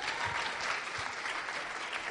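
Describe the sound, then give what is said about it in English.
Seated audience applauding a group of performers: a dense, even clatter of many clapping hands that runs steadily through the whole clip. “just give these guys a clap”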